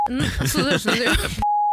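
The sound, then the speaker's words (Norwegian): A censor bleep cuts out a word in talk: a brief steady high beep at the start, then lively speech, then another flat high beep that sounds alone at the end. “Det må bipes ut. Det må bipes ut. Kan du bipe ut rett etter...”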